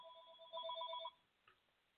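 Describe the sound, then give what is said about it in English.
A phone ringing faintly with an electronic ringtone: a thin steady tone that turns into a rapid warbling trill for about half a second, then cuts off, followed by a tiny blip. “So my phone is ringing here. Let me turn this phone off.”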